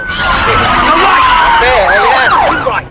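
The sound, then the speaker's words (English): Sirens blare from two police cars careering around a corner, loud and unbroken. A long tone slides slowly downward before giving way to rapid, overlapping wailing sweeps that fade slightly at the end. “Two police cars career around the corner.”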